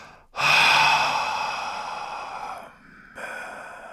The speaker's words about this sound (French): Inspirez profondément par le nez, au niveau de la gorge, faites rayonner. Et expirez par la bouche.